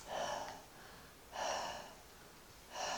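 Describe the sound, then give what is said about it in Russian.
Breathing into a microphone during a sermon: three loud, airy breaths separated by short pauses, with no talk. “Если я буду только дышать в микрофон, вы ничего не поймете.”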